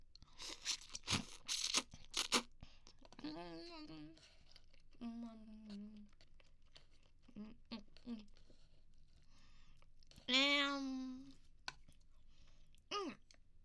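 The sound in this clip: Eating sounds sit close to the microphone: loud crunching and tearing bursts come first, then a few softer chewing noises between stretches of a woman's talking.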